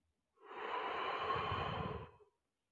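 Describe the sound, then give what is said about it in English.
One long, deep breath, soft and airy with a faint rasp, rises and falls smoothly with nothing else around it. “let's take some deep breaths in. and deep breaths out.”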